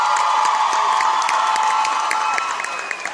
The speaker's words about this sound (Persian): به افتخارش دست بزن.